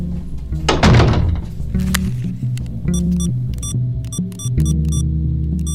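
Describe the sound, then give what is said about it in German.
A bedroom door being pushed shut, landing with a heavy, dull thunk, followed about a second later by a lighter knock, with a continuous low hum underneath. “Du gehst einfach ins Schlafzimmer und machst die Tür zu.”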